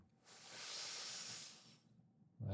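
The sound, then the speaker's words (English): One slow, deep breath in, taken sitting upright during a guided breathing exercise: a soft, airy hiss swells for about a second and a half, then fades. The breath is faint and alone. “So we can go ahead and sit up nice and tall here. Let's just start with one nice breath in.”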